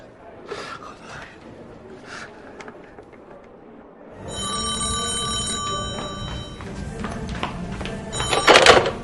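A telephone rings as a man in prison calls his wife and child. Scattered soft knocks and breathy sounds come first, then a steady, bright, tonal ring starts partway through and keeps going, growing brighter near the end.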